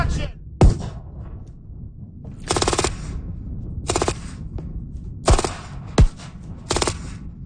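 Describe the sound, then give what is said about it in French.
Pyrotechnic blasts set off during the shoot of a short historical film, a series of sharp, loud bangs and crackling bursts spaced a second or so apart over a low rumbling background. “Ce que vous venez d'entendre, c'est une bombe pyrotechnique qu'on a fait sauter lors d'un tournage d'un nouveau court-métrage de la Minute du patrimoine”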